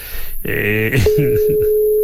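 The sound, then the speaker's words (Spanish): Unanswered telephone call: a voice speaks, then a steady mid-pitched ringback tone sets in and holds unbroken to the end while the speaking briefly continues over it. “No me coge el teléfono ahora, cago en la mar.”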